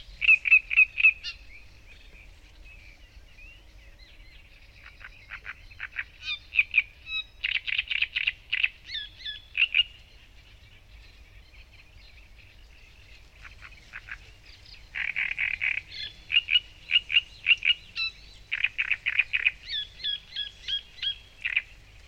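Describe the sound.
A male bird sings its long song to attract a female, repeating bursts of high, chirping phrases separated by short pauses, heard alone over a faint low hum.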